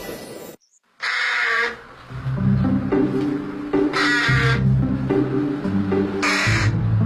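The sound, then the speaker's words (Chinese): A carrion crow caws, giving three loud, harsh calls spaced a few seconds apart. “我叫小嘴乌鸦，体长45到53厘米左右。体色为黑色，带有紫色光泽，喜欢大群栖息，但是不结群筑巢，属于杂食性的鸟类”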